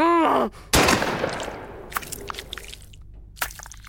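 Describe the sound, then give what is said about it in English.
A single handgun gunshot, one sharp, loud crack that decays over a second or so. A brief voiced cry comes just before it, and a few faint clicks and knocks follow. “Just then, Adam pulled a gun from his waistband, aimed... No!”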